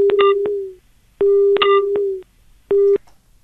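Telephone line tones as a caller is connected on a live radio phone-in: three steady, mid-pitched tone bursts, each set off by sharp clicks, with short gaps between them.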